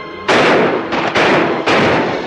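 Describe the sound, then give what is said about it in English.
Gunshots in a gunfight among trees: a few loud, sharp cracks in quick, uneven succession, each followed by a rolling, noisy decay. “Another of Mosley's men is hit. Frank takes a shot and then dashes away from his tree.”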